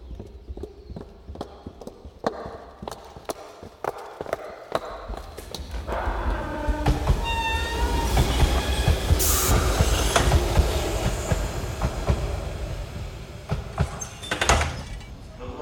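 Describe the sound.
A train passes through a station: rhythmic clacks of wheels over rail joints build into a loud rumble with squealing wheel tones, easing slightly before a final burst of noise.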